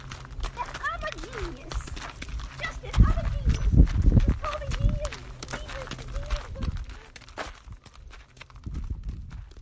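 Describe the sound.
A horse at an animal sanctuary, its hooves clip-clopping in an uneven walking rhythm beneath a person talking.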